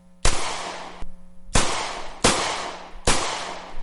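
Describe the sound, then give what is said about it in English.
Four loud gunshots fired at targets, each a sharp crack with a short ringing tail, spaced unevenly over a few seconds with no voices. “And those shots you heard were me hitting every target.”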